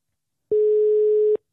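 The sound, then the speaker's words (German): A telephone ringback tone plays while a call is being placed to someone: a single steady, mid-pitched beep lasting under a second, clean and alone against silence. “Dann drück doch nochmal drauf, dann rufst du ihn wieder an.”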